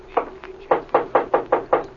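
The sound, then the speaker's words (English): Knuckles rap on a door in a house: eight sharp knocks in a quick, fairly even series, the second one softer, with no voices over them. “Come on in the living room, and I'll knock on Mrs. Croft's door.”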